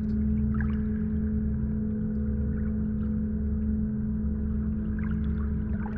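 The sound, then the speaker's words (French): Steady flowing water during a guided meditation, a continuous, even rush with no breaks, over a low sustained tonal hum. “Sentez, ressentez la connexion profonde avec la nature qui vous entoure, avec cette eau qui coule.”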